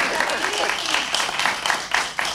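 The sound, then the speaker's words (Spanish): Studio audience applause in a radio studio, a dense burst of many hands clapping at a fairly loud, slightly uneven level. “Un aplauso para Ana y para Daniel Biglietti.”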